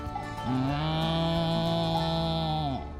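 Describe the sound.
A cow mooing on a farm: one long, low, steady moo held for over two seconds, dropping slightly in pitch as it ends, with no talking.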